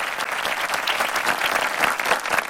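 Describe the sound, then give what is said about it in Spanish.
Dense applause from a crowd, steady and loud throughout with no pause, a continuous wash of many hands clapping. “Así van a ser los aplausos igualitos para nuestra selección mexicana el día de mañana.”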